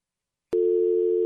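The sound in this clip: A telephone busy signal sounds after a caller hangs up on a call-in line. A steady single-pitched tone starts abruptly and carries on unbroken to the end, alone.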